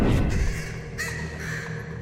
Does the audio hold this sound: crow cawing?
yes

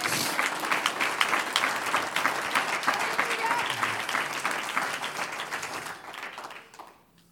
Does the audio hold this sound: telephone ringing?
no

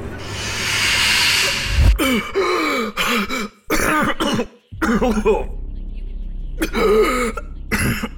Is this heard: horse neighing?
no

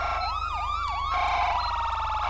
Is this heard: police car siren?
yes

